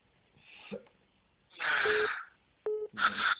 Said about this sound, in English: Just breathe in and out 5 times heavily. Oh, 5 times heavily.